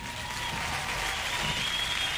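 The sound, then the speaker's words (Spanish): Applause from a crowd, a dense, steady patter of clapping that holds at an even level throughout without breaks. “¡Aplausos, aplausos!”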